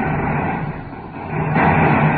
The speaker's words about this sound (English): Power deck, cut rocket. Here we go, sir. Touchdown.